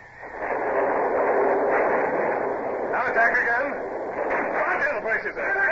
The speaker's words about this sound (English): Now, tack ship and run across her stern. A broadside, Mr. Gerard.